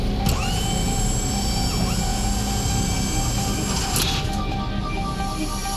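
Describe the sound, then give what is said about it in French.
Spaceship airlock access hatch opening for a vehicle extraction, a science-fiction mechanical effect. A loud, steady droning hum carries high whining tones, with a brief hissing burst near the start and another later on. “Ouverture du sas d'accès pour extraction véhicule.”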